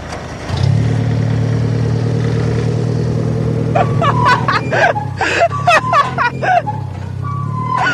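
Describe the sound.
A Jeep engine, started with a spoon in the ignition after a jump start, catches abruptly and settles into a steady low running drone. People talk over the engine in the second half.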